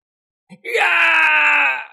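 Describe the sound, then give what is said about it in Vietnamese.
An anguished scream from a wounded man: a short faint gasp, then one loud, sustained, high wailing cry that fades away at the end. “Hoắc Thản kêu một tiếng thảm thiết, nguyên thần vừa ra liền xuất hiện những vết rách.”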